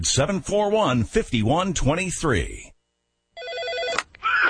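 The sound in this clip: An old PBX office phone system rings with a warbling electronic tone, arriving after a voice talks and a brief silence, then broken by a short gap before sounding again.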